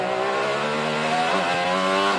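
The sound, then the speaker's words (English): An IndyCar race car rips around a street circuit in Detroit, its engine a loud, high-revving sustained whine that briefly shifts pitch midway before carrying on steadily. “That's driver Kyle Kirkwood ripping his IndyCar around Detroit back in May.”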